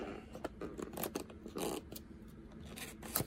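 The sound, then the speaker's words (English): Crinkling, clicking plastic as a pre-cut two-piece blister pack holding a toy Chevrolet Corvette is pulled open. Many sharp, irregular snaps and crackles come in quick succession and stay fairly faint. “It comes in their standard box and the two-piece blister, which I've already cut so that it'll be easy to go on and open, which I'm going to do right now.”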